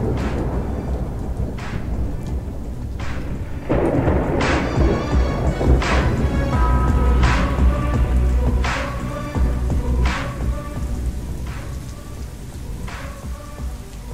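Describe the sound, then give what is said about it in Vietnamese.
Heavy rain pours down in a windy forest storm, a dense steady roar of drops broken by many sharp, loud crashing hits. “Mưa ào ào như trút, những hạt mưa to như hạt đậu trong cơn cuồng phong sầm sập rơi xuống,”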